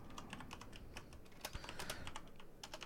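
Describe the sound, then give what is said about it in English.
Rapid typing on a computer keyboard while a message is written, with a steady run of light, closely spaced keystroke clicks and no pauses. “You can just kind of type a message.”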